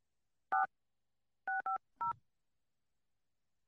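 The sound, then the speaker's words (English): Telephone keypad dialing tones beep five times: a single tone, a quick pair, another single, then a last beep after a pause. Each is short, clean and fairly soft. “Do you have to dial one first?”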